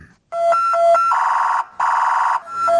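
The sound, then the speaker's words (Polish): A loud siren sounds from a police road-traffic accident emergency vehicle. It alternates between a high and a low tone, switches to a rapid warbling wail that breaks off briefly, and then returns to the two-tone pattern. “Ambulans pogotowia wypadkowego ruchu drogowego.”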